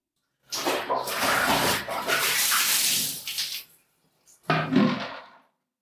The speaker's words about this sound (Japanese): 全身泡まみれ。もうこれくらいでいいかしら。じゃあ、お湯で流すわね。